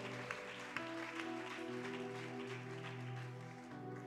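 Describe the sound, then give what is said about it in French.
Congregation applauding in church to acclaim the Holy Spirit, a faint, steady patter of many hands clapping over a soft sustained musical tone. “Est-ce qu'on peut acclamer encore le Saint-Esprit”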